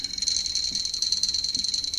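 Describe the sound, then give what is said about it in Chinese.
Steady high-pitched buzzing chirp from a hand-held object opened and closed to imitate cicada song, with a rapid pulsing texture that runs unbroken through the whole clip and a couple of faint low knocks underneath. “对，它可以打开合起来。听听看像什么声音？ 蝉鸣。”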